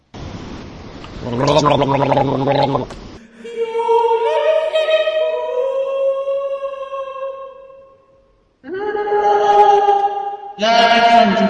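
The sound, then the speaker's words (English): A person gargles with loud voiced gurgling in several long stretches separated by brief gaps, some parts carrying a wavering held tone. “I just need to gargle.”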